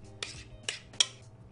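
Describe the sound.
A spoon clinks against a dish while ricotta is layered on top, giving three sharp, bright taps spaced unevenly across the moment, followed by a softer tap near the end.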